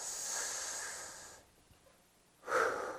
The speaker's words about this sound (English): take a deep breath on the count of three, okay?